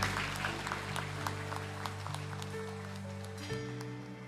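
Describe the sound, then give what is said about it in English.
A church audience gives a quiet round of applause, scattered hand claps over a sustained low chord that shifts once near the end. “Can we give a round of applause sa Panginoon?”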